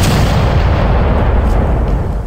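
Cannon fire in a naval battle between sailing warships: a loud, dense, continuous roaring rumble with no clearly separated blasts, sustained throughout.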